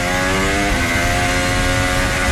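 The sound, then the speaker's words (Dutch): Audi Formula 1 car accelerating out of a chicane, unstable and struggling on the exit: a loud, dense, high-revving engine whine with a steady, buzzing harmonic tone throughout. “Bortoletto in de Audi. Oh, bij dat insturen onstabiel, hè? En ook bij het uitaccelereren van de Velchikane. Hij heeft het lastig, ja.”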